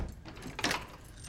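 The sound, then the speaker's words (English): An apartment door closes with a single brief, muffled thud and a light rattle over low, steady background noise. “She enters her apartment door and closes the door behind her.”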